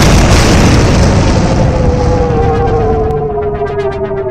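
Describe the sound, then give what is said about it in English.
A starship exploding in a video game: a loud, roaring blast that slowly fades while a tonal whine slides downward beneath it. “Your ship is destroyed. You lose.”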